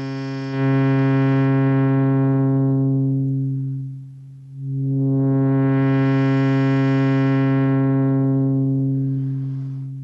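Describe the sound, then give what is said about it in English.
Sustained synthesizer tone at a steady low pitch as a low-pass filter closes: the bright upper overtones fade from the top down until almost nothing remains. The filter then reopens to full brightness and slowly closes again. “So I'll close the filter, and we'll cut out first the higher overtones and then all of them.”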